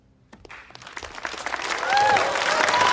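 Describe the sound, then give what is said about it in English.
Applause from an audience and fellow competitors after a speech at a competition. It starts with a few scattered claps, then swells into dense, steady clapping that grows louder toward the end. “Her competitors join in on the applause, a couple of them even standing up.”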